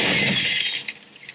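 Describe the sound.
A stylish glass coffee table smashes after a fall: a loud, sustained crash of breaking glass that thins out into a few scattered small clinks and tinkles.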